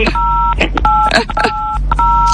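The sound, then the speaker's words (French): Telephone keypad tones from a phone's buttons being pressed form a string of dual-pitched beeps that start and stop several times, heard among voices talking. “Madame, vous poussez sur les touches du téléphone.”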